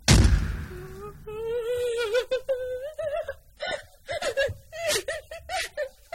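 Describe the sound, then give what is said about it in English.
Someone sobs: a sharp gasp opens into wavering, high-pitched wails that break into short, shaky bursts, with catching breaths between them. “Somebody sobbing? I'm sorry, it's me.”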